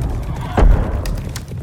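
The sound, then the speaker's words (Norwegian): Galloping horses ridden hard by knights fleeing trolls, their hooves clattering in a quick rhythm, with a short loud whinny cutting through near the start. “Ridderne rir hestene så fort det går, men trollet kommer stadig nærmere og nærmere.”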